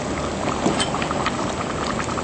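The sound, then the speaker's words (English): Liquid boiling hard in a cooking pot, a loud steady bubbling and hissing that keeps going unbroken throughout with no talk over it. “Okay, it's boiling very well.”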